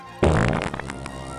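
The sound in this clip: A single loud fart bursts out abruptly during a soldiers' drill scene, a rough, low, sputtering blast that trails off over about a second. No voices are heard.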